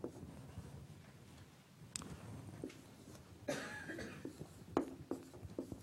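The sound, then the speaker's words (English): Faint scratchy strokes of something being written down during a lecture, irregular and soft, with a few louder scrapes and taps toward the end. “Let me write something.”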